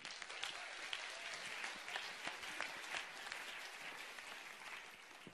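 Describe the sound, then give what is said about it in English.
Audience applause welcoming a speaker: steady, faint, continuous clapping from many hands, an even patter that holds throughout. “So can you put your hands together and welcome Jeff.”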